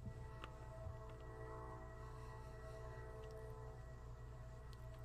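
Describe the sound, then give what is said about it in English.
A train passing close by gives a steady low rumble with sustained tonal hum and a few faint clanks on top. It is continuous and fairly quiet, with no voices. “Sorry about the train, if you guys can hear that. The train's closer to me than it is you. Come on, train, shut up.”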